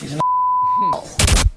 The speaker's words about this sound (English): It's not hard to work out what that beep word was either.